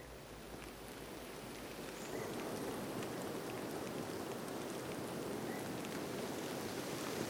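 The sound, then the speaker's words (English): Steady rain on a misty morning in the Appalachian Mountains, an even, unbroken hiss of falling drops that grows slightly louder after the first couple of seconds and then holds constant. “It's a kind of a rainy, misty Sunday morning.”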